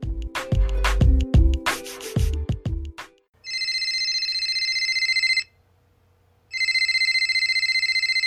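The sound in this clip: A telephone rings twice with a bright, steady electronic trill, each ring lasting about two seconds with a pause between them, after a few seconds of loud percussive sounds.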